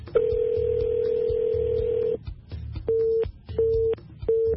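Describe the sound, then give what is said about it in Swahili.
Telephone call tones while a caller fails to be reached: one long steady tone, then three short, evenly spaced beeps over a low rumbling background. “Tumemkosa hapo Nskanabo kwa njia ya simu”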